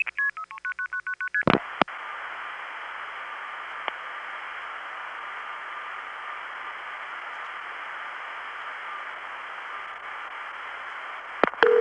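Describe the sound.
A quick run of telephone keypad dialing beeps, then a click and a long, steady, hissing line tone that holds for about ten seconds before a few clicks at the end.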